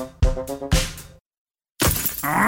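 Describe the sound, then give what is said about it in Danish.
A stone chip strikes a car windscreen: a few sharp glassy impacts with a bright ringing tone, then a brief silence, followed by a loud, noisy crackling burst that carries on to the end. “Et stenslag! Det skal du få fikset, for en skadet rude revner lidt, når det er koldt.”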